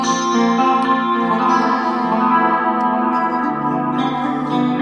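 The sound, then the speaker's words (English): Electric guitar through a delay pedal with the mix set high, so loud repeats smear and overlap sustained notes into a continuous, washy wall of tone. “If I set the mix really high, or higher than I would normally set it, the delay and repeats are quite loud.”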